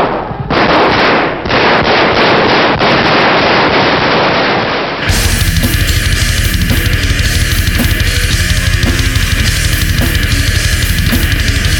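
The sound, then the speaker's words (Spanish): Gunshots in a recording of the 1981 Spanish coup attempt: many sharp cracks in quick succession within a muffled, noisy, band-limited archival sound, then a switch to a loud, steady hum with crackle. “después de escuchar aquellos disparos”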